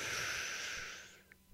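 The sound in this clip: A single deep breath in during a breathing exercise: a soft, airy inhale lasting about a second that fades out, followed by a few faint clicks.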